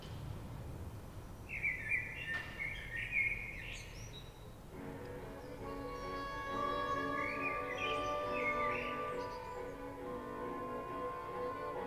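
A blackbird singing in short, bright whistled phrases: a few bursts early on and more later, over steady background noise.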